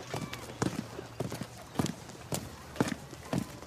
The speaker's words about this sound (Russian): Гоцман и Арсенин спускаются по лестнице